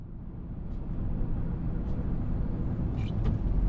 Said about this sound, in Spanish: Contacto puesto, motor en marcha, ¡allá vamos!